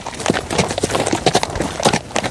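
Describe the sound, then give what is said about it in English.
Horse hooves clip-clop as a family rides on horseback through Nuku'alofa, Tonga, in 1980s footage: many quick, sharp knocks in an uneven, lively rhythm, loud and close, with no voices. “In this 1980s video, a family rides via horseback in Nuku'alofa.”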